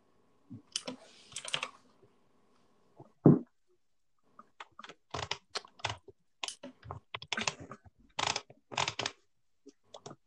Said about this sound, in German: Was sind das für Tippgeräusche? Ich glaube, Computer.